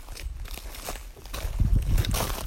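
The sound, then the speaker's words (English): Footsteps crossing newly installed wooden boardwalks at a Cornwall beaver project site. Many irregular thuds and knocks over a faint background hiss, growing heavier and louder in the second half. “So we're now walking across these are newly installed boardwalks, aren't they?”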